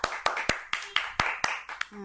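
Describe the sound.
Rhythmic group clapping rewards a correct quiz answer, with about nine sharp claps spaced evenly at a brisk, steady beat.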